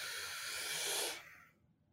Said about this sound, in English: Now take a deep breath and hold it as deep as you can.